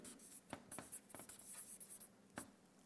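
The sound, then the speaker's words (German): A black pen writes on paper with a faint, dry scratching, broken by a few sharper strokes at uneven intervals, with no talk over it. “Jetzt kommt der dritte Punkt, den ich hier aufschreibe. Moment, wo habe ich jetzt meinen schwarzen Stift?”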